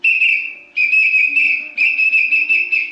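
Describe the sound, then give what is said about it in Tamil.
Three long, shrill whistle blasts sound back to back, comically from a man who has swallowed a whistle. Each high tone holds with a slight warble and a brief break between blasts, and no other sound is heard. “ஏற்கனவே ஒரு விசில முழுங்கிட்டு தவிச்சுட்டு இருக்காரு. விசில வெளியே எடுக்க வர வழி சொல்லுங்க சார். ரொம்ப சிம்பிள்மா, துப்புடா. அதுக்கு விசிலியே சவுண்ட் கொடுக்குறான்.”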